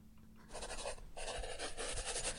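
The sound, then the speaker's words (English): Writing by hand makes faint, scratchy strokes in two quick bursts, the second longer and denser, with no talk over it. “I love fun stories. Let me write it down.”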